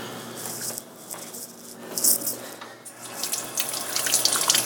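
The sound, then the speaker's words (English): Tap water runs into a kitchen sink as utensils are rinsed: a steady splashing rush with light metallic clinks and rattles that grows louder toward the end. “Just kind of rinsing my utensils as I go here.”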